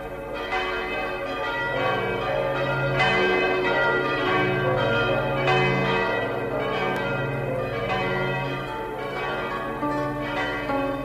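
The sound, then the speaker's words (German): Newly hung church bells ring together for the first time, a continuous overlapping peal of many strikes at a steady rhythm with rich, lingering tones throughout. “Und als die neuen Glocken zum ersten Mal läuteten, da läuteten sie nicht nur um ihrer selbst willen”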